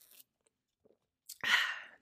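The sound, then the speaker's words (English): A sip from an energy drink: a few faint clicks, then one brief, breathy slurp near the end. Quiet overall with no talking. “Actually, let me take a sip of this Celsius.”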